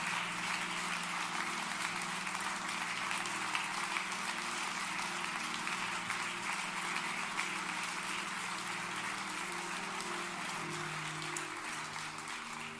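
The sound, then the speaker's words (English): A church audience applauding to welcome a speaker, a dense, steady clapping that holds evenly throughout, with a low sustained tone underneath. “Can you put your hands together and welcome Sister Bonita Prince?”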